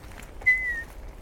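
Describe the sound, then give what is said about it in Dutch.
A person whistles an imitation of a bullfinch call, a single short, soft, piping note that holds steady and then dips slightly at its end, alone over faint background hiss. “Maar de goudvink heeft een opvallend roepje. Hij doet”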